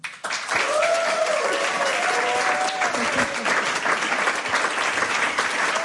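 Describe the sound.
Sustained, dense applause from an audience welcoming musicians onto a stage, starting abruptly and holding steady and loud, with a voice faintly audible within it.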